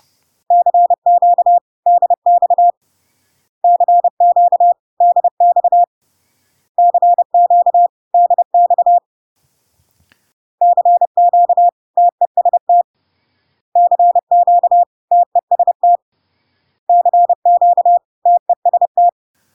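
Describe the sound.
Morse code tones sending the calls CQDX and CQTest, three times each: a steady mid-pitched beep keyed in quick dots and dashes, forming six short bursts split into two sets of three by a longer pause, with no voices.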